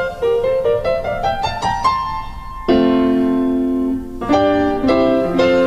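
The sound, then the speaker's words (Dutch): A short melody played on a second piano set in the same room as another: a run of quick struck notes climbing in pitch, then a louder sustained chord, followed by more ringing notes, with no voices. “En nu gaat hij naar piano 2. Die klinkt zo.”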